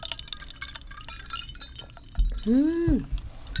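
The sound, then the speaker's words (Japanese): Glasses clink together in a toast at a bar, a few bright, ringing chimes early on, with people talking and a drawn-out voice near the end. “では乾杯。 はい、乾杯。 乾杯。”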